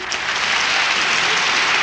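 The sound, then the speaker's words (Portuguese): Applause for a birthday dedication after a requested song: brief, dense and even clapping, loud and sustained from start to finish. “mais palmas, oi, oi, oi, oi!”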